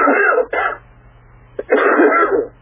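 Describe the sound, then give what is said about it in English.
Someone still getting over a cough produces a few harsh, throaty coughs. Two bursts come close together, then a quiet gap, then a longer rough cough. “Excuse me. It's okay. Still trying to get over a cough.”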